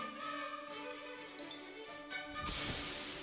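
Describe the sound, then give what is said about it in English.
A steak sizzling as it hits a grill: music plays at first, then a loud, steady hiss bursts in and carries on to the end. “That steak. Yeah, the one you just threw on the grill.”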